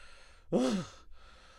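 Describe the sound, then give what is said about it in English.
One short, loud, wheezing breath, voiced like a strained sigh, rises out of near-silence and quickly fades again. “Times Square falls silent, except for the loud, wheezing breaths of our supposed hero.”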